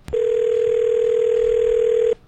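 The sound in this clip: A telephone dial tone on a call-in line: a brief click, then one steady continuous tone holding at an even, loud level for about two seconds before cutting off, with no talk over it.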